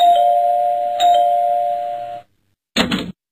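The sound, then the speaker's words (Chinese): A home doorbell chimes: two bright electronic tones, the second sounding about a second after the first. The chime rings on steadily before cutting off, and a short, brief noise follows. “不一会儿啊，家里的门铃就响”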